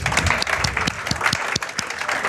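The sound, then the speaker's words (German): Audience applause at a stage event in Berlin: a steady burst of many hands clapping, with a few sharper individual claps standing out and no talk over it. “Und dein Applaus.”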